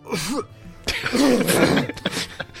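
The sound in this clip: A person coughs and clears their throat in a few rough bursts that run into a longer raspy stretch, loud and with no talk.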